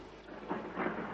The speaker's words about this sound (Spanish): Fanny y Alexander miran la tormenta por la ventana